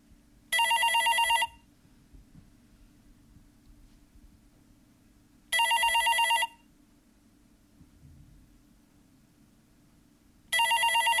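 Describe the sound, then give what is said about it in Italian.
A telephone bell rings in three separate bursts, each about a second of bright, rapid trilling, with several seconds of faint hiss between them. The third ring is cut short. “Prendi quel maledetto telefono.”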